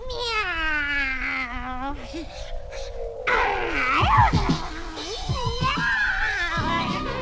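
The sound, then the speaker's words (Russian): Voices imitate a cat and a fox quarrelling on a children's audio record, with drawn-out meows, yowls, wails and sharp yelps that rise and fall in pitch and overlap in a noisy squabble. “Да это лиса Алиса и кот Базилио опять ссорятся. Вот лиса настигает кота”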